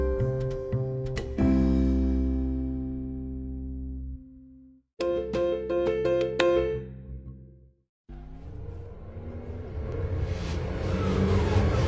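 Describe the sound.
Whining, rushing noise of Formula E electric race cars racing at night in a desert city. A loud, steady roar fills the final few seconds, after ringing tonal hits separated by brief silences.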